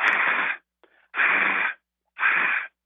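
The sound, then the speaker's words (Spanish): A person forcefully exhales three times, imitating blowing into a breathalyzer. Each breath is a loud, breathy rush lasting about half a second, separated by short pauses. “le va a decir que respire y exhale así”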